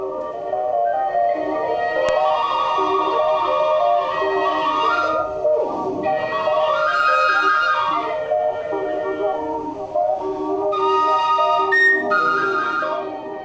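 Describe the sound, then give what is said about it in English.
Whistles played through a movable whistle drone, layering sustained harmonic tones that run continuously, with a couple of sliding dips in pitch partway through. “playing with this movable whistle drone kind of thing. Yeah. And I was like playing, I was holding the whistles.”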